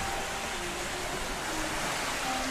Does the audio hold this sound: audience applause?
no